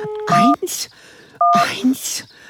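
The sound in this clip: Telephone keypad tones dialing the emergency number 112 for the fire brigade: a few short, steady electronic beeps with breathy vocal sounds between them.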